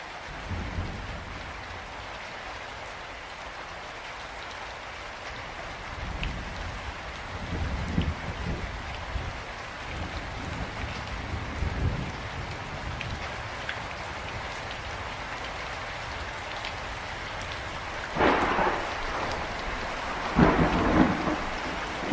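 Steady rain hisses throughout, with low rolling thunder rumbles in the middle and a couple of louder thunder bursts near the end.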